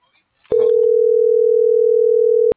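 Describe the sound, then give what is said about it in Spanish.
A telephone tone sounds while a call is being placed: one steady, loud, mid-pitched tone held for about two seconds, with a short muffled noise at its start. “Le estoy marcando a este Andrés porque lo veo detenido, pero no me contesta.”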